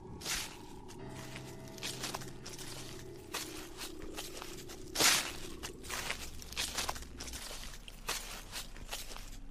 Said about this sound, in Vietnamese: hắn xác định chính là tiếng bước chân dẫm lên lá khô.